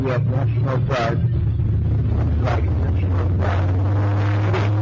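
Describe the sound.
Engine rumble from National Guard vehicles driving past while on police duty, a steady low drone with a man talking over it.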